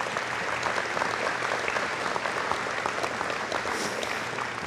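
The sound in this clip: Audience applause welcoming a performer known for the lead role of Jean Valjean in Les Misérables, dense, steady clapping that holds a fairly even level throughout without talk.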